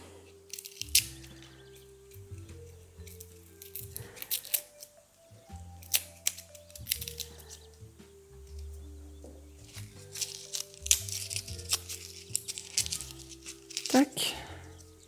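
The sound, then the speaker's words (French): Garlic cloves are peeled by hand while cooking. Many small, irregular crackles, clicks and papery crinkles from the skins sit quietly under steady background music. “Alors, j'épluche mes gousses d'ail.”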